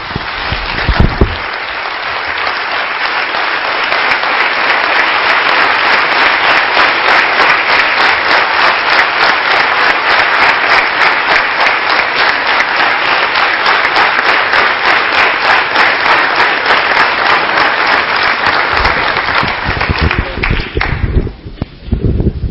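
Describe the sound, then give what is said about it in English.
Sustained, loud applause from an audience of medical professionals giving a standing ovation, a dense unbroken wash of clapping lasting about twenty seconds before tapering off at the end. “Somebody said we should give you a standing ovation. May I request all of you to give a standing ovation.”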